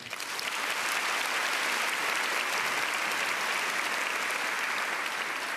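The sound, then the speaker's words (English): An audience applauds to welcome three speakers at a talk on women breaking down barriers. The steady clapping is dense and unbroken and holds at an even level throughout. “Would you please put your hands together and welcome our speakers today, Allison, Jessica, and Michelle.”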